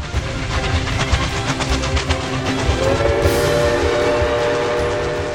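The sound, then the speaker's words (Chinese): A special train runs along the railway with a steady, rhythmic clatter and a heavy rumble. Midway, a sustained horn or whistle tone begins and holds to the end over the continuing noise. “每当这个时候，帕斯巴德就恨不得能冲下车来阻挡对向的车，好让专用列车畅通无阻的前进。”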